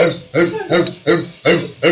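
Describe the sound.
A human voice imitating a dog barking: five evenly spaced, rough, loud bark-like bursts in a steady rhythm.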